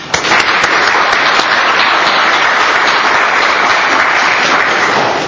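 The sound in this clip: Audience applause welcoming a guest speaker at a law school lecture, a loud, dense wash of clapping that holds steady from start to finish with no voices over it.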